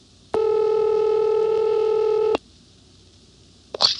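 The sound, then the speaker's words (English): A telephone being dialed on a line routed through a cord board operator: one steady electronic tone holds for about two seconds, then silence, then a brief faint blip near the end. “Dialing again.”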